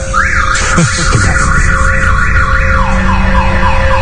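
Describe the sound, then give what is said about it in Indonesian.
A car alarm going off in a basement, a loud, continuous electronic warble that sweeps rapidly up and down in pitch in a steady repeating pattern. “aku terbangun karena mendengar suara alarm mobil yang berbunyi di basement.”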